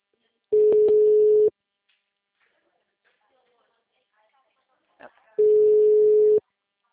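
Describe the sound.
Phone ringback tone from an outgoing call: two long, steady mid-pitched beeps, each about a second, separated by a pause of roughly four seconds, with a brief faint voice just before the second tone.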